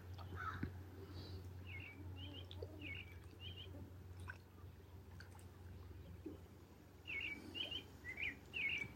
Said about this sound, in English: Listen to the robin bringing in the new day.